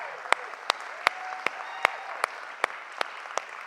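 A church audience applauds its guests during a morning service. The claps land in a steady, evenly spaced rhythm, about nine sharp strikes, over a continuous bed of crowd noise.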